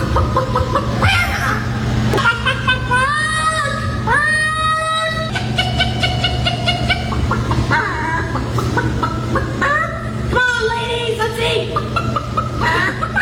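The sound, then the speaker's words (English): Women imitate chicken calls at a Ladies Chicken Calling Contest, a rural old-time competition. Voices cluck, cackle and whoop in many rapid, swooping calls over a steady low hum. “I just stumbled across yet another new one, which is the Ladies Chicken Calling Contest. This is part of the Rural Americana Old Time Competitions, and it sounds like this.”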